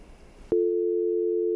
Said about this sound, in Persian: فکر کنم ارتباطشون با ما قطع شد.